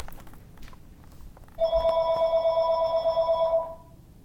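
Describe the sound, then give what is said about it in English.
A telephone rings once in a single steady, loud ring of about two seconds, with a bright tone over quiet background noise. “Do you need to get the phone?”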